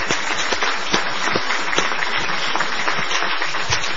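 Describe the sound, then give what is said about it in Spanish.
Audience applause rolls on steadily, a busy patter of many hands with a few sharper individual claps standing out, kept at an even, moderately loud level throughout. “Vamos a aplaudir a Tute, que es de lo mejor,”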